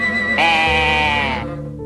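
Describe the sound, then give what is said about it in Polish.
A ram bleating: one loud, sustained, strongly harmonic cry lasting about a second, with a low rumbling sound continuing beneath it and afterward. “To żaden kłębek, to baran!”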